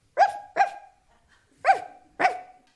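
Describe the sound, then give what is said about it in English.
A human voice imitating the bark of a very small dog: four sharp, yappy barks in two pairs, each short and high-pitched with a quick decay, separated by a brief pause. “He was a very small dog. He made the sound like this.”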